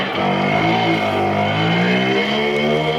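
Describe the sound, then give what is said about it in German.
A Simson moped engine rattling: a loud, continuous buzzing drone with dense harmonics that holds steady throughout, alone without any voices. “damit künftig noch mehr Simsons mit 60 km/h über die Straße knattern.”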